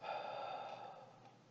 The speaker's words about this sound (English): Breathe in slowly through your nose and out through your mouth.